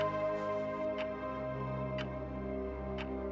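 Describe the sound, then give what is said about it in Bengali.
A clock ticks three times at even one-second intervals, each tick a crisp, faint click over a sustained, steady tonal drone. “টিকটিক শব্দটা এবার অসহ্য লাগতে শুরু করেছিল”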